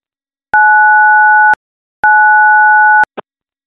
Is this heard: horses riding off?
no